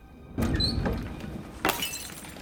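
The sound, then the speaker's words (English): A vase falls off a table and smashes: a sudden crash of breaking, followed shortly by a second, sharper burst of shattering. “A vase on a table falls over and smashes.”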